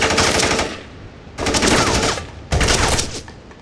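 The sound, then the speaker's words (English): Automatic rifle gunfire in three sustained bursts of rapid shots, loud and dense, separated by short pauses, with no voices. “You got a license for that automatic rifle”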